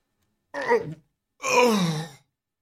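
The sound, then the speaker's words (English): Seasick groaning from a person in a bobbing lifeboat: two voiced groans, the first short, the second longer and fuller, both strained and moaning, separated by a brief silence. “You groan. You're seasick.”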